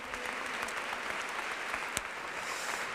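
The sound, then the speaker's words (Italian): An audience applauds at the close of a festival event honouring its president and artistic director. The clapping is dense and continuous, holding at an even level throughout with no lulls. “Un applauso.”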